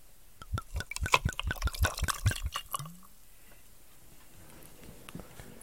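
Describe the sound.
Super Nikka whisky is poured over ice in a glass, with a quick run of sharp clinks and splashing liquid for about two and a half seconds, followed by near silence.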